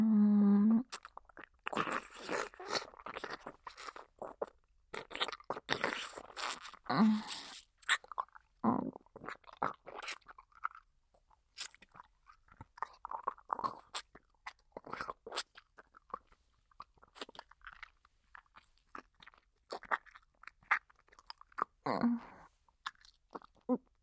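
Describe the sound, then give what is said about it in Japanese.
Wet, close chewing and swallowing of food, many irregular crunchy and squelchy mouth sounds in bursts separated by short pauses, with no talking. “ほら、飲み込むぞ。よく聞いておけ。”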